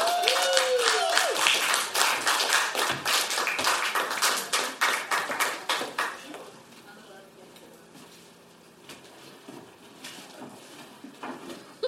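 Audience applause welcoming a performer at a music festival: dense, crackling clapping from many hands that gradually thins out and drops to a faint, sparse patter.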